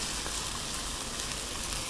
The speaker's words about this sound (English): they're giving off a little bit of liquid, so that's protecting them from scorching at all, which helps. So I'm stirring them around just so they're all evenly coated with olive oil.